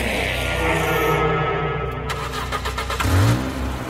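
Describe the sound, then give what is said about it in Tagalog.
A van engine runs and revs with a loud, steady rumble. Partway through it turns rougher and pulsing, then swells to a louder surge near the end, with no voices present. “Pinaandar ni Tito Brian ang van.”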